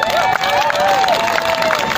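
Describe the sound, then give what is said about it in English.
A crowd's brief burst of applause and cheering welcomes a speaker introduced at a gathering, with clapping and high whoops and shouts layered together at a steady, lively level. “Big round of applause, guys.”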